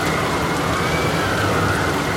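Heavy rain from a violent night storm on a small island pours down in a dense, even roar of hiss and rumble that holds steady throughout with no voices.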